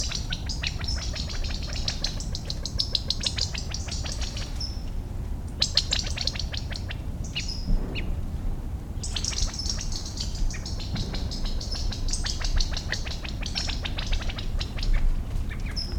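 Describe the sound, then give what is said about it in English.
Half-grown quail chicks call while moving through a buckeye shrub: many thin, high peeping chirps in loose clusters over a steady low background rumble. “I see a number of chicks moving through a buckeye, perhaps half grown. I think that's a quail also.”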